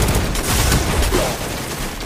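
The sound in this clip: Rapid gunfire rattles in the video game Destiny 2, Season of the Chosen. Dense bursts of shots overlap in a loud, continuous volley that eases off slightly toward the end.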